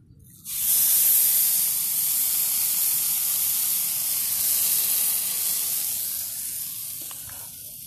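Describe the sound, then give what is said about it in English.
Food searing in a hot pan: a sudden loud sizzle bursts in and holds as a steady, bright hiss, easing slightly over several seconds, with no talk. “Excuse me for a minute. I'm gonna have to sear this.”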